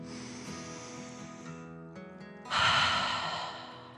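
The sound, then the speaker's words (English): A single deep breath is drawn in and let out: a soft inhale, then a louder, airy exhale that slowly fades, over soft sustained tones. “the little boy took one more deep dragon breath in and out.”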